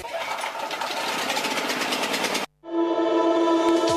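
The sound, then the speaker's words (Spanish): A diesel generator set runs with a steady, rattling engine drone. The sound cuts off briefly, then a steady humming tone resumes. “¿Podemos poner un aire acondicionado con este grupo? Grupo Electrógeno. Ruido y luz versus silencio y oscuridad.”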